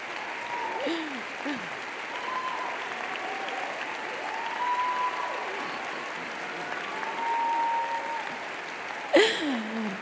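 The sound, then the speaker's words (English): An audience applauds a woman being introduced to speak, with continuous, even clapping throughout. A voice talks over the applause, and a brief sharp burst stands out near the end. “So if we can all give her an applause, Yvette Isaac”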